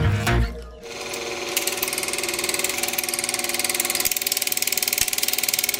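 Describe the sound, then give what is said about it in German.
A Super 8 film projector from the 1960s or 70s running: a loud, fast, steady mechanical clatter with a whirring motor, after a short low thump at the start. “Kennt ihr das Geräusch noch? Den Eltern unter euch vielleicht bekannt. Ein Super 8-Projektor aus den 60er, 70er Jahren.”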